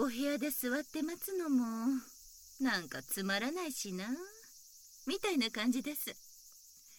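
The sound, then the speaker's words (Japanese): Cicadas sing in summer heat by a veranda, a continuous high buzzing drone that runs through the whole scene beneath a voice speaking Japanese. “セミの声も風情があると言いますが、慣れてしまうとただただうるさく暑さを助長するように思えて。”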